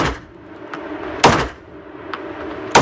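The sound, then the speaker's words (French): Two loud, sharp gunshots from a Remington 1858 black powder replica revolver, fired at a target, come about one and a half seconds apart. Fainter mechanical clicks sound between them. “Donc ça, c'est un revolver à poudre noir. C'est un Remington 1858, donc c'est une réplique d'arme de la guerre de sécession.”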